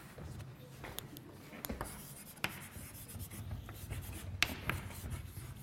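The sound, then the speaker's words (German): Handwriting with a pen, faint scratchy strokes and small taps as a long word and an apostrophe are written, coming in short irregular bursts over a quiet background. “So, ich schreibe jetzt kurz, weil das Wort wahrscheinlich lang ist, nur Wahrscheinlichkeit mit diesem Apostroph hier.”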